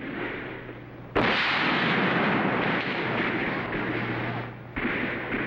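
A musket gunshot: one sudden, loud crack followed by a sustained rushing rumble over continuous background noise, with no talk.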